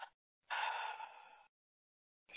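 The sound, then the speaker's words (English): A deep, airy breath during a guided relaxation exercise, one long soft rush lasting about a second, with short breathy sounds at the start and end, faint and alone. “Take a deep breath in. Let go.”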